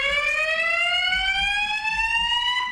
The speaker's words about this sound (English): That's the fire alarm that they installed.